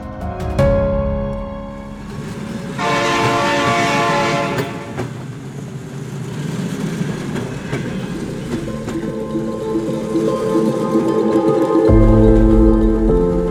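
A train runs along with its horn blaring, a sound effect in an audio drama about a train ride to Bongaon. Steady loud rumbling and rattling continue throughout, with a long horn blast early on and a deep low tone near the end.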